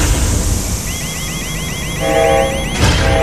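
Electronic warning alarm in a spaceship cabin: loud, rapid, repeated rising chirps, with a steady higher tone layer joining partway through.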